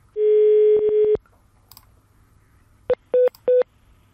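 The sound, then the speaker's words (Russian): Telephone tones while a number is dialled: a steady electronic tone lasting about a second, then a pause and three short, evenly spaced keypad beeps, clear and alone. “давайте попробуем позвонить”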